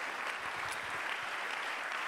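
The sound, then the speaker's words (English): Congregation clapping hands during a church service: a dense, steady wash of many claps at moderate loudness, with no clear pauses. “Clap your hands.”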